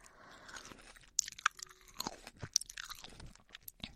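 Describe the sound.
Grapes being chewed, a steady run of wet, crunchy bites broken by a few sharp crackles, fairly faint and with no talk over them.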